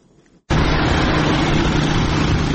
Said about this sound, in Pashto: دغه غږ د هغه وسلوالو طالبانو د موټر سایکلانو او موټرو دی کوم چې د افغان دولت په وړاندې وسله پورته کړې ده